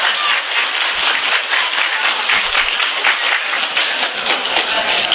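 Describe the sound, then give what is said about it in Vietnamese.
A church audience gives loud, dense applause, a continuous patter of many hands clapping evenly for the whole stretch. “5,000 rồi, vỗ thêm cái nữa.”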